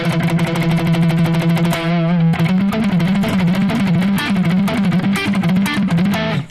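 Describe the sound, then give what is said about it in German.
Loud distorted electric guitar in a vintage shred tone suited to picking: a long sustained note with vibrato gives way to articulate picked phrases with sharp attacks and bent, wavering notes, playing without a break. “Ja, das ist ein guter Vintage-Shred-Sound tatsächlich. Also, ich mag ja eigentlich so Sounds fürs Picking, weil du halt da gerade dann sehr den Attack und das Perkussive vom Picking, sag ich mal, sehr durchbekommst.”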